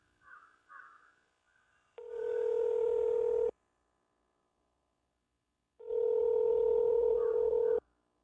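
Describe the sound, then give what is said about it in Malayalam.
Telephone ringback tone on an outgoing call, heard as two long, steady buzzing tones separated by a few seconds of silence. “ഞാനിപ്പോൾ തന്നെ വിളിച്ചു പറയാം.”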